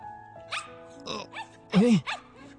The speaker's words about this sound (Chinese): 呢只狗仔咁似我以前嗰只嘅。